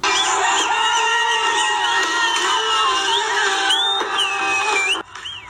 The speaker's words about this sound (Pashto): د استرالیا په وړاندې د افغانستان د کرکټ د ملي ټیم پرونی بریا په افغانستان او بهر کې ګڼو افغانانو په شور او زوګ لمانځلې ده